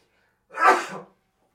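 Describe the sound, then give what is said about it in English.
A single sneeze, a short, sharp burst of breath and voice that swells and quickly fades, heard alone in a studio. “Never sneeze while you're on air.”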